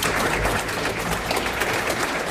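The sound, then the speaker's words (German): Audience applause after a concert: dense, even clapping from a crowd that holds at a steady level throughout, with no single claps standing out. “Herzlichen Dank, ein dicker Applaus.”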